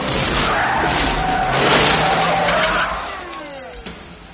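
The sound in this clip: Tires squeal and skid as several police cars arrive, with loud sustained screeches over a rushing engine roar that peaks midway and then eases off toward the end.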